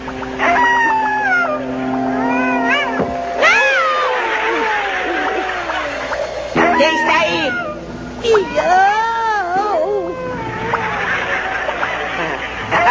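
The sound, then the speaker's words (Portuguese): Cat meowing in a video game: several drawn-out, wavering meow calls, loud and overlapping, over a steady tonal backdrop. “Um gato!”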